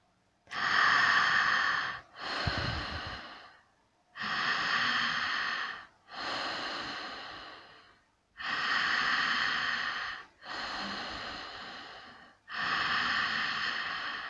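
Deep breathing during a guided breathing exercise: seven long, steady breath sounds in slow succession. They are inhales and exhales of even loudness, separated by brief pauses, with no talk.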